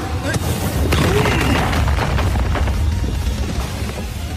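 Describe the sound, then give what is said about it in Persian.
Explosive boom of a rocket punch striking, a loud, dense roar of rumbling blast and crackling noise that fills the whole stretch, easing slightly toward the end. “این دیگه چی بود؟ مشت راکتی؟”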